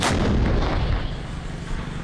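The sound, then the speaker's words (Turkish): Artillery fire hitting regime targets in Idlib: one heavy blast at the start, then a long rumbling decay that fades into a low, steady roar. “Saldırıya misliyle karşılık verildi. İşte rejim hedeflerinin vurulma anı.”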